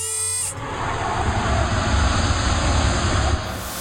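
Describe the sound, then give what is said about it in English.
A spaceship's landing gear lowers with a steady mechanical whirring rumble and a thin, high whine on top. It cuts in abruptly, holds evenly loud for about three seconds, then stops. “Put down the landing gear, Finn. I don't know what to do. Forget it. I'll do it.”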